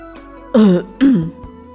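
Two short throat-clearing coughs come in quick succession. Both are voiced and fairly loud over a low, steady background hum.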